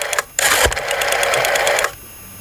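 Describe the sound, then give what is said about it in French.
A telephone number being dialed on what sounds like an old phone: a brief click, then a steady run of rapid, rhythmic mechanical clicks lasting about a second and a half before stopping. “déjà on compose le numéro. Ah oui. Donc on l'appelle, hein.”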